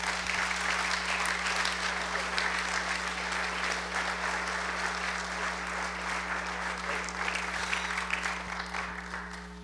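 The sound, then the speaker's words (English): Sustained audience applause welcoming a speaker to the stage: dense, steady clapping that holds at an even, loud level for the whole stretch without breaks. “I want you guys to give him a really warm welcome.”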